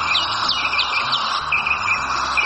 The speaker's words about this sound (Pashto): افغانستان د بیلابیلو مرغانو کور خو د ښکار ویره هم ورسره ډېره ده.